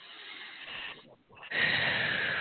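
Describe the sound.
A deep, breathy exhale through the mouth during a relaxation exercise: soft airy rushing that dips briefly, then swells into a fuller, steady outward breath, with no talking.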